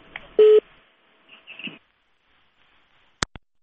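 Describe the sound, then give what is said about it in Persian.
Telephone line tones and clicks as a caller's connection to a radio call-in show drops: a brief, loud steady tone near the start, then faint muffled line noise and quiet, then two sharp clicks close together at the end. “متاسفانه تماس آقای ترخیل قطع شد.”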